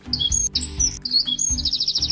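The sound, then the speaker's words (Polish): A wren sings in the early morning, joining a great tit after sunrise: high, bright whistled phrases that end in a fast run of repeated notes, over a low rumble. “A gdy słońce już wzejdzie, sikorka się odzywa. Tak, to już takie uparcie. Wstawaj, nie? Do sikorki pół godziny później dołącza strzyżyk.”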